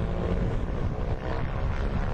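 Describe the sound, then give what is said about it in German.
Steady engine roar of a very small airplane flying along Tasmania's southwest coast: a dense, low-heavy drone with a breathy wash, constant throughout with no clear rise or fall. “Das Abenteuer beginnt in einem sehr kleinen Flieger. Wir starten in der Hauptstadt Hobart und fliegen entlang der Südwestküste nach Melaleuca.”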